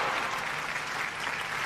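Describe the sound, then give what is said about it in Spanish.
Applause from a crowd forms a dense, steady wash of clapping that stays even in loudness for a brief moment. “Quedaron los aplausos ahí como para recibirlo a él.”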